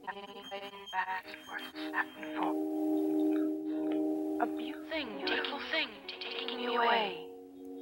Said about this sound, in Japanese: 例えば人の声とかでも、 はい はい、そのまま流すことできるんですけども、うん、例えばこれをグラニュラーシンセサイザーのパッドショップで流すと